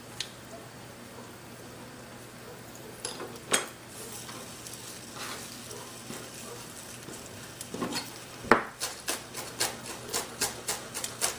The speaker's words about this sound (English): We're gonna wait for the mustard seeds to pop just a little bit before we add the cumin in there.